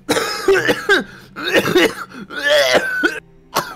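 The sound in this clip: A harsh, rasping coughing fit from a dust-lung attack: several loud voiced coughs in quick bursts with brief pauses, then one short cough after a silent gap.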